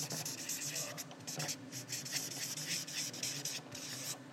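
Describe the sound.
Faint handwriting: many short scratchy strokes of a pen or marker dragged across a surface in an uneven rhythm, quiet throughout.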